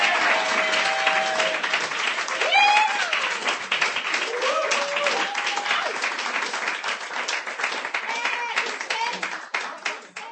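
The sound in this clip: Audience applause at a poetry reading: sustained, even clapping from many hands that holds steady for most of ten seconds, then tapers off near the end.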